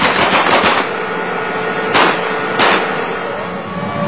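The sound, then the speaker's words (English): Machine-gun fire from a US Army tank crew shooting up a car in Iraq: a loud, dense, continuous rattling roar with two brief, harsher bursts around the middle. “We'll shoot up the vehicle.”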